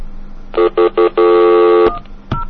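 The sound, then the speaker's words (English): Touch-tone keypad dialling a number after a 1010 access code: three short, loud tones in quick succession, then one long sustained tone, followed by a couple of brief clicks. “I'll just dial some random number.”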